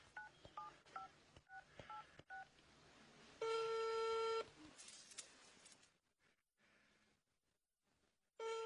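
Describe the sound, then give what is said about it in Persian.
Telephone dialing for a call: many quick keypad tones in an uneven series, then a steady, loud ringing tone lasting about a second, a quiet gap, and another ring tone starting at the end. “بذار یه زنگ به آقا جون بزنم.”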